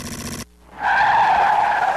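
Tire squeal of a car skidding, used as a sound effect in a radio advertisement for a car repair shop. It comes in after a brief burst of music and a short gap, then holds a loud, sustained screech to the end.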